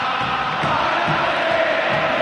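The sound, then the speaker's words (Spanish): River Plate football fans chanting in the stadium, a dense and loud roar of many voices that stays continuous and unbroken from start to finish. “Ah, cómo está la gente de River, ¿eh? ¡Oh! Es tremendo esto, ¿eh? Se escucha bien de fondo, ¿no?”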